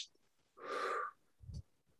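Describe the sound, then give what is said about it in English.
A short, forceful breath during a vagus-nerve calming exercise: a rushing, airy burst of about half a second, then a brief low thump, quiet and without talk. “two sharp inhales through the nose and a really long exhale through the mouth”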